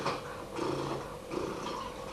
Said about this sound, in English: You know what cats do when they're happy? They purr. You know how they purr? They go.